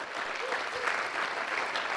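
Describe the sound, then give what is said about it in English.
A round of applause from an audience for a guest speaker at a religious gathering: steady, dense clapping with no pauses. “If you appreciate it, let's give him a good round of applause again.”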